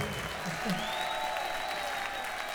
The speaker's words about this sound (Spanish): Por favor, un aplauso muy grande a Rojo, nuestro técnico de sonido, a Baru, nuestro técnico de luces, a Gallo